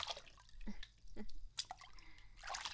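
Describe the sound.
Hot bath water dripping: a few faint, sharp drops land at irregular intervals amid soft watery sloshing, quiet throughout.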